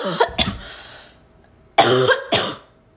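A person coughs from a dust particle stuck in the throat, giving two pairs of harsh, rasping coughs with a short quiet pause between them.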